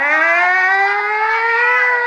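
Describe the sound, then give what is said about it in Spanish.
An ambulance siren wails at an accident scene, a loud, steady tone rich in harmonics that climbs slowly in pitch and sounds alone. “Abran paso que llegó la ambulancia.”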